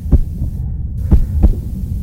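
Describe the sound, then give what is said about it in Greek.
Heartbeat of a shop assistant: three low, muffled thumps, one early and then a closer pair near the end, over a steady low hum. “Αυτός είναι ο ήχος του καρδιακού παλμού ενός βοηθού καταστήματος.”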